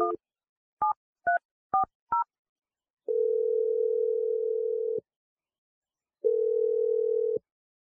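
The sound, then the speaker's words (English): Five short touch-tone beeps of differing pitch as a phone number is dialed, followed by two long, steady ringing tones separated by a pause, with no voices. “I'm going to dial your boyfriend Adam's number and you can reveal the gender of your new baby to him.”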